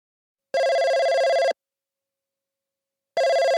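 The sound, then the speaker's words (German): A telephone rings in two separate electronic bursts with a long silent gap between them. The second burst is cut off at the end. No one speaks. “Anne ruft Thorsten an.”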